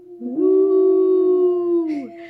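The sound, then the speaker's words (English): A wolf howl sound effect: one long, sustained, mid-pitched howl that rises at the start, holds steady for about two seconds, then falls away. “the sound that you want to be listening out for is, of course, the wolf howl. It sounds like this.”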